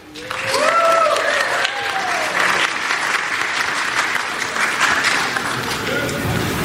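Loud, sustained applause from the crowd at a debate event welcoming a guest, with whoops and cheers rising above the clapping near the start before it settles into an even roar.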